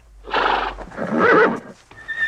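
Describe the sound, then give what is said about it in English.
A horse whinnies loudly in two long, wavering harmonic bursts, from a horse tucked under the covers of a bed, followed by a brief quieter snort-like sound and a thin high tone. “The horse raises its head as she starts to leave.”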